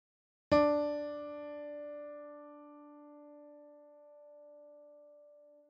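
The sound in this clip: A test tone, fifth in a numbered series, begins as one pitched note with a sharp attack and rich overtones. It holds steadily for several seconds and slowly fades at the end.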